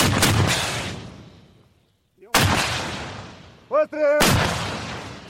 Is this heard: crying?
no